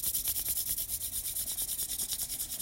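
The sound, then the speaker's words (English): Hands rubbed briskly together to warm them during a breathing exercise: a steady run of many quick, even rasping strokes, fairly loud and with no other sound. “Exhaling, rubbing the hands nice and hot.”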